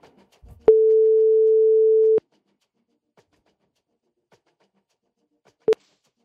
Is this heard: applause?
no